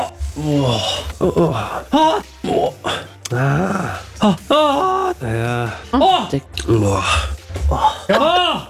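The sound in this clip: A man moaning while watching a football match at a public viewing, giving many loud, drawn-out groans, gasps and grunting vocal outbursts in quick succession.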